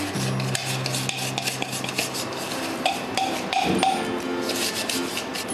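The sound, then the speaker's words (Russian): Rough scraping and rubbing of a spatula working a dough of olive oil and nut flour, steady rasping strokes that continue throughout with light clinks against the bowl. “и все перемешиваем. Сначала лопаточкой, а теперь можно вымесить руками еще.”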